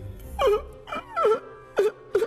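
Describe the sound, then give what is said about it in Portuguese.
Crying in short whimpering bursts, about five sobbing wails, each sliding downward in pitch, with brief pauses between them. “Para de chorar, que bichona, hein, Cuca?”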